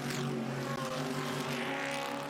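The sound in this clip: Race car engines roar at the Bathurst 12 Hour at Mount Panorama, a loud, continuous drone that holds a steady pitch throughout with no voices over it.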